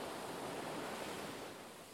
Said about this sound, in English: Feel the energy of the waves flowing to you.